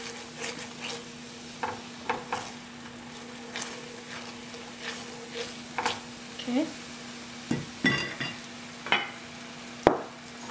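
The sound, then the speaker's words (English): A utensil stirs food in a frying pan after soy sauce is added, giving many irregular scraping clicks and taps over a faint sizzle and a low steady hum. “Add some soy sauce in here. And see how it just helped it also thicken it up.”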